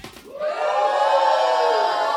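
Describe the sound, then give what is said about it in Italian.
A studio audience at a live radio show in Milan cheers and shouts, a loud, sustained roar of many voices that swells quickly after a brief onset and holds steady for about two seconds. “Abbiamo un pubblico foltissimo oggi. Fatevi sentire.”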